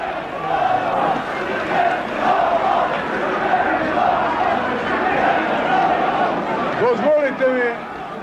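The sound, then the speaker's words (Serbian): A large crowd at a 1992 rally for Slobodan Milošević in Kosovo Polje chants in a steady repeating rhythm under a broad roar of voices, with a single shout cutting through near the end. “Slobodan Milošević je boravio u Kosovu Polju i govorio okupljenima koji nisu žalili skandiranje aplauze. Ovako je bilo.”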